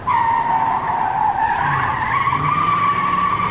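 Car tires squeal in one long continuous skid as the car is driven fast. The loud, high-pitched whine wavers slightly in pitch throughout, with a low rumble beneath it.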